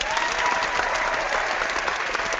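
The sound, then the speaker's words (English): Applause from an audience fills the stretch as steady, dense clapping, loud and continuous with no pauses and no talk over it. “Applause. Lots of applause.”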